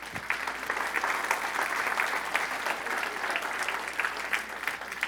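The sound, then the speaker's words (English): Audience applause at a church teaching meeting, a dense, even wash of many clapping hands that holds steady throughout with no talk over it. “A round of applause for Elder Ed Sutton”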